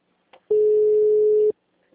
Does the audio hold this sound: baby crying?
no

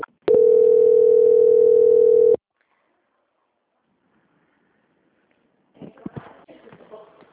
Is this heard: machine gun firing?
no

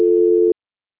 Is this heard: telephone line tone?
yes

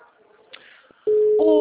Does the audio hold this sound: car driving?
no

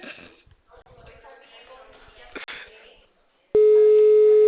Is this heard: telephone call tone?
yes

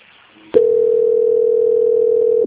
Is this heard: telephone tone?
yes

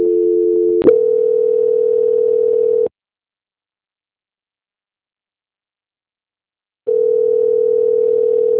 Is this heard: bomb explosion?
no

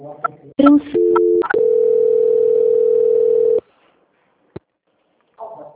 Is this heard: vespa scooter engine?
no

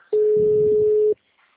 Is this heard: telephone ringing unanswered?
yes

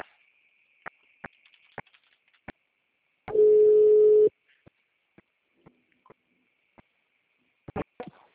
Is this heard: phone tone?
yes

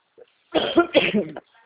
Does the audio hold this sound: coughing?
yes

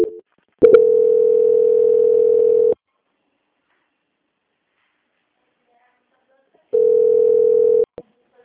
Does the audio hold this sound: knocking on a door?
no

